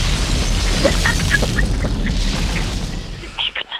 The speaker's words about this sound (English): We are going to play a bomb exploding sound effect there.